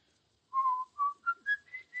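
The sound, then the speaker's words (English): A man whistles a song alone, fairly softly: a short phrase of several clear, sustained notes stepping upward in pitch, the first held longest. “Why'd you whistle that song so much?”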